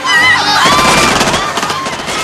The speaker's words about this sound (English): he fires back, riddling all four agents full of bullet holes